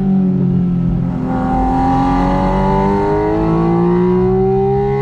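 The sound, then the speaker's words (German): A Porsche Spyder RS's 4-litre, 500 PS six-cylinder boxer engine revs steadily, its loud, dense harmonic howl climbing gradually in pitch throughout with no break. “Hier hat er gerade 6-Zylinder-Boxermotor hören, 4 Liter Hubraum mit 500 PS auf 450 Nm Drehmoment.”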